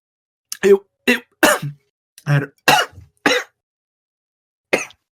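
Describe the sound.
Coughing and throat clearing by one person: a series of short, rough, hacking bursts, several close together, then a pause before a final single cough.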